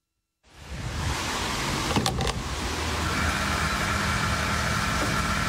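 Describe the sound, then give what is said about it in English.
Diesel being pumped into a vehicle at a filling station gives a steady, even whirring rush. It starts abruptly and runs on unbroken, with a brief clattering knock near the middle. “This is the sound of the most important fuel in the world being bought at a price it's never been bought at before. Diesel moves the lorries that stock your supermarket”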